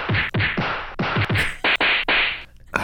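A beating sound effect from a comedy ad: a rapid run of loud, hard whacks and thwacks, each with a short swishing tail, landing one after another with brief gaps between.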